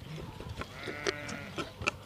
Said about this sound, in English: And then I've got a Suffolk stud, and just run a few Moggies sheep. Suffolk, there's some down there.